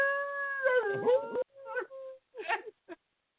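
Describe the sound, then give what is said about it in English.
A human voice imitates a howl: one long wavering tone that bends and dips in pitch, followed by three shorter yelping howls. “We need to do it sometimes like they really do, and I'll start howling and you start howling too.”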